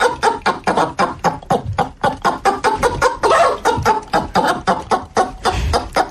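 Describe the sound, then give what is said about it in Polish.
A frightened hen clucks in rapid, harsh bursts, many sharp clucks following one another in a steady, agitated rhythm, loud and alone throughout. “Ale to jest przestraszona kurka.”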